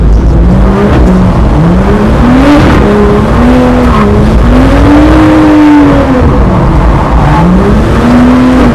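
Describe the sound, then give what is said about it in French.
A BMW car engine revs loudly and continuously during a ride, its pitch climbing and dropping again and again in uneven surges. “Une BMW, c'est quand même quelque chose. C'est quand même quelque chose de fou.”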